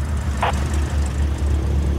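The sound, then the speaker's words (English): A Cessna 152 light aircraft sits on the tarmac at a California airport before takeoff, heard from inside: a steady low engine drone throughout, with one brief click-like burst near the start. “I'm sitting in a Cessna 152 aircraft on the tarmac at McClellan Palomar Airport in California. And I've just been given clearance by the tower for takeoff.”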